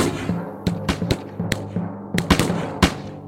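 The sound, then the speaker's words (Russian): Arquebus gunfire in a battle: a ragged volley of sharp cracks, several shots fired at uneven intervals over a low rumbling background. “Заряжай пищали и пали по неприятелю! Задние, заряжай, передавай передним! Пали, не переводя духу!”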